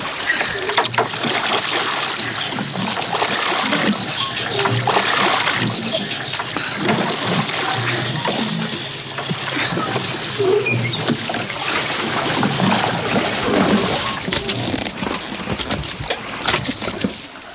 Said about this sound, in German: Ruder einen großen Bogen zum Haus zurück, damit wir nicht auffallen.